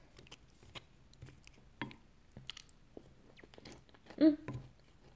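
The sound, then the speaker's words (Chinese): People eating a meal chew and bite in soft, scattered smacks and crunchy clicks, mostly quiet, with one louder burst of crunching near the end. “多吃点，好吃吧？这会儿饭也吃完了”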